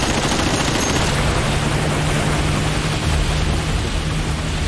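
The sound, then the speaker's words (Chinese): Dense gunfire roars in a continuous barrage laid down to block criminals fleeing toward the open sea, a loud unbroken wash of overlapping shots with no distinct gaps between them. “拦阻射击，封锁歹徒向公海逃脱的路线，开火。”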